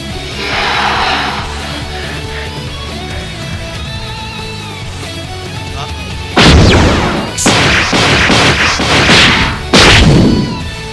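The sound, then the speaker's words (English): Battle sound effect of a barrage of punches from firing fists: a few heavy, explosive blasts with whooshing tails burst in after a sustained humming drone. “Vinny has lashed out with a furious attack with multiple firing fists. It seems quite the barrage of physicality with some energy behind it, too.”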